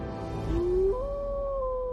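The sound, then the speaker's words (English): A wolf howls in the distance: one long, clear, tonal call that climbs in pitch, then holds a steady note before dipping slightly near the end, over a low rumbling background. “off in the distance, you hear a wolf howl.”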